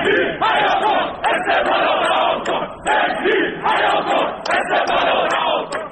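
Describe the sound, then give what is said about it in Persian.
Esteghlal Tehran football fans protest at the team's training ground, demanding the head coach's dismissal. Their loud crowd chants come in repeated bursts separated by short gaps. “از باشگاه استقلال تهران خبر رسیده روز سه‌شنبه عده‌ای از هواداران این تیم در محل تمرین بازیکنان دست به تجمع اعتراضی زدند و خواهان برکناری محمود فکری سرمربی این تیم شدند.”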